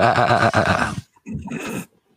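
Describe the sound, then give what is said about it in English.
A goat's bleat: two loud, nasal, wavering cries, the first longer and the second shorter after a brief pause. “The goat says,”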